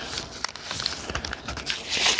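Tape is handled and pulled during a DIY job, giving crinkly, scratchy tearing and rustling in irregular bursts of varying loudness.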